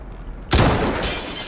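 A sniper rifle shot fired at a suspect on command during a police operation: one sudden, loud, harsh burst breaks a quiet background and leaves a sustained, noisy wash that carries on to the end.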